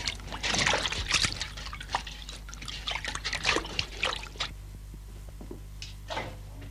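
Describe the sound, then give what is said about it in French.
Water trickles and sloshes as it is mixed with yeast in a basin to make bread dough: a run of irregular splashing, liquid bursts for about four seconds, then quieter, sparser dribbles. “Je prends l'eau dans une bassine, je la délègue avec la levure.”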